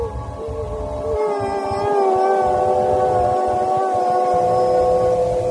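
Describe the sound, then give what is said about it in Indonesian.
A person cries in a bedroom, a long, drawn-out mournful wail that wavers in pitch and stays loud and sustained throughout, with no speech. “Aku terbangun karena sayup-sayup. Aku mendengar suara orang menangis di kamarku.”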